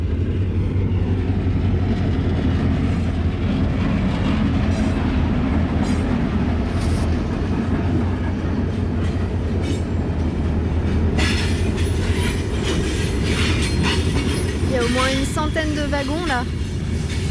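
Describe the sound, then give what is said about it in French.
A long freight train of iron ore wagons passes with a loud, unbroken rumble and rattle of wheels on rail. Brief high metallic squeals rise near the end. “Wagons là. Ah, je les ai pas comptés, mais on en voit beaucoup passer là.”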